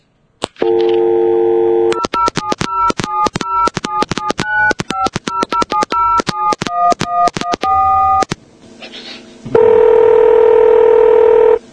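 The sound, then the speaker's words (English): A telephone number being dialled on a touch-tone phone: a steady tone, then a quick run of many short touch-tone beeps at varying pitches, then another long steady tone. “I do actually have his number. It's an interesting number. Dial it, boys. Give it a dial.”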